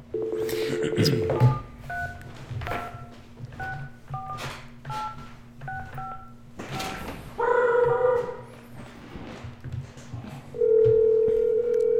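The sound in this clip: Telephone keypad being dialed: a quick series of short, clean beeps in varying pitches, followed by longer steady phone tones near the end, over faint background noise.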